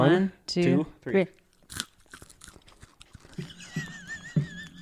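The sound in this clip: Crunching and chewing of a dry, crunchy morsel: a sharp crisp bite followed by scattered small crackles, with people talking before and after.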